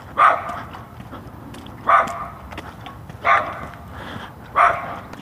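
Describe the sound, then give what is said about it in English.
A tiny dog barks four times, each bark a short, sharp, surprisingly full yap, spaced roughly a second and a half apart over a quiet background with no talking. “Hey, that's a big bark for a little tiny dog.”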